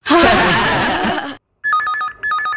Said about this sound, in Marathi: SMS आहे, message काय तो तरी बघा।